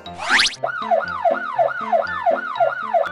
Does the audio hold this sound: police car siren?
yes